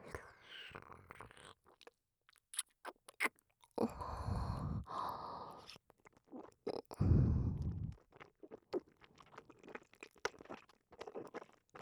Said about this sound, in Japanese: このまま耳元で飲み込む音を聞いていて。 行くわ。いただきます。